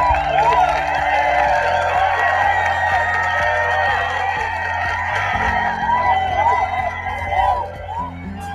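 An audience cheers at a party-themed anniversary show. Many overlapping shouts and whoops carry on loud and sustained, then ease slightly near the end.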